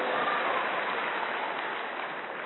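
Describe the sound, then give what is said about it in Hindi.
An audience clapping loudly for themselves after a show of hands, a steady, even hiss of many hands held at a constant level with no breaks. “आप सब अपने खुद के लिए ताली बजा दीजिए जोरदार।”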